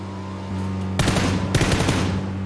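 Gunfire rings out in rapid, loud bursts of sharp cracks, breaking in suddenly over a steady low hum and continuing in a fast, uneven volley to the end.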